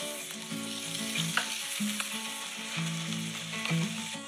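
Eggs and bacon frying for breakfast: a steady, crackling sizzle with fine pops that runs evenly through the whole clip at moderate loudness, with no talking.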